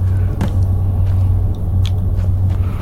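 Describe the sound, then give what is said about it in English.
A magical apparatus spinning in a video game gives off a loud, steady low rumble with a constant droning hum, broken by a few faint clicks and ticks. “This thing just started spinning and light came through the ceiling.”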